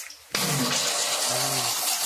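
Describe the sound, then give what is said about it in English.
Water rushes in to fill a moat, starting abruptly after a brief quiet moment and then holding as a loud, steady, broad splashing rush. “He's filling the moat right now.”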